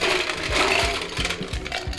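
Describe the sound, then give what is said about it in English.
Square machine-made ice cubes dropped into a tall glass to chill it for a built drink: many clattering clinks and knocks in quick, irregular succession, fairly loud, with no talk. “so we're starting with a tall glass, adding ice to it to, as you said, chill the glass, keep it nice and cool.”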